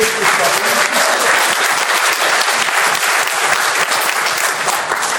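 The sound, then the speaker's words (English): Applause from an audience greeting a mention of the Rushcliffe constituency and its MP, thick continuous clapping from many people, loud and unbroken for about five seconds. “Round of applause for Rushcliffe, Ken.”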